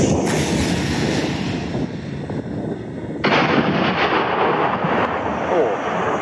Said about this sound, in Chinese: 直接是全号装药，所以发射的时候这个声音要比刚才打箭聊的时候大了很多，而且击中山体之后这种爆炸声